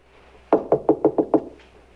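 Six sharp knocks on a bedroom door land in quick, evenly spaced succession. They are loud and crisp against a quiet background.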